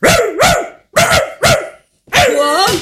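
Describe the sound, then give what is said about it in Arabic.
A neighbour's dog barks in a series of loud, sharp, harmonic barks separated by brief pauses, with a longer, strained final bark. “الكلب متاع الجار الكلب متاع الجار”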